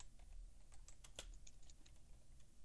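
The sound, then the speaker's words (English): Typing a search on a computer keyboard: quick, light keystrokes patter unevenly throughout, quiet and close, with no voices. “Here, let's type in dead guitar player. That's what I just typed in.”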